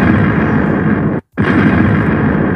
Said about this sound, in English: So we're gonna give you some bombs.